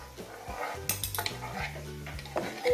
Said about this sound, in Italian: e si va a mescolare il tutto.